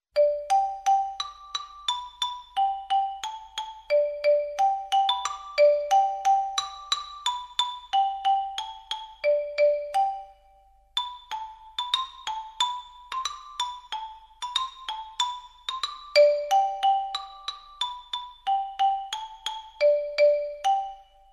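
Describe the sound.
A nursery rhyme played on a xylophone: bright, clear struck notes form a simple, steady melody, with two phrases divided by a short pause and each note ringing briefly; no voices.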